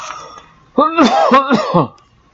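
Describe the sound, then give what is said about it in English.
A person clearing a scratchy throat with a loud, voiced, rasping rumble of a few linked pushes lasting about a second, then quiet. “Sorry about that. I had a little scratch in my throat.”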